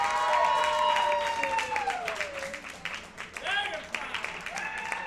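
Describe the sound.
An audience applauding and cheering for the rock band Dragonfly Red, clapping mixed with sustained, wavering shouts from many voices, loudest at the start and tapering off over about five seconds.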